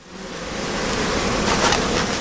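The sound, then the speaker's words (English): Honeybees buzz around a hive frame as a beekeeper in southwest France lifts it from one of his 400 hives, the frame heavy with bees, pollen, wax and honey. A dense, steady hum swells slightly and continues without pause. “Guillaume Argeret lifts a frame out of one of his 400 hives, heavy with bees, pollen, wax, and honey”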